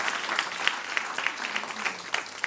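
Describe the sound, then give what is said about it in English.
Audience applause and hand clapping at a church service, a dense, steady patter of many hands that keeps an even level throughout, with no clear voices standing out. “I think you need to give yourself a hand clap in Jesus' mighty name.”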